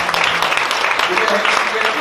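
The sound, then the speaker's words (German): Congregation clapping for Jesus during a bilingual church service, with dense rhythmic clapping and voices mixed in throughout. “Put your hands together for Jesus. Klatscht für Jesus.”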